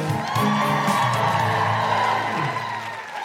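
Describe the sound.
Live comedy show audience at St David's Hall, Cardiff, cheering and applauding loudly, with sustained whoops and shouts over steady clapping that eases slightly at the end.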